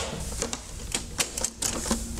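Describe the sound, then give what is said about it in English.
A Betamax video cassette recorder ejects a tape with a quick series of sharp mechanical ticks and small clattering knocks over a faint background hiss. “Compare ejecting a tape on the Betamax to the VHS. First, watch the Betamax.”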